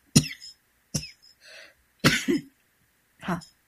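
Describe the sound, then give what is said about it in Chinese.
A person coughs and clears their throat in a few short, sharp bursts with brief pauses between them. No one talks. “因为这是现场节目，真的就是突然就像咳嗽那么两声啊”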